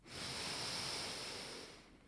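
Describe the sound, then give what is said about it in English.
A deep breath in during a guided breathing exercise: one long, steady, airy inhale lasting about two seconds. It is broad and hissy at fairly even loudness and tapers off at the end, with no talk. “Let's actually take a breath together. Big breath in.”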